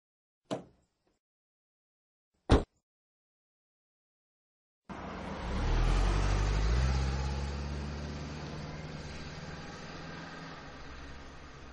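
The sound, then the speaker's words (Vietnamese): A taxi drives off into traffic. Two sharp clicks come first, then a broad engine and traffic rumble swells in and holds steadily, easing off slightly toward the end. “Xe rất nhanh lách vào giữa dòng xe cộ.”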